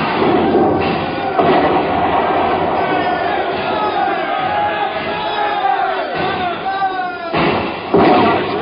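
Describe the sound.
Heavy booms of a ship's cannons firing a broadside in a naval battle, a few sharp blasts breaking through a steady din of shouting men and loud voices.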